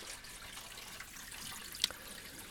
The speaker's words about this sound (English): Let's just get some hot water in the washing because there's some cups and glasses in there.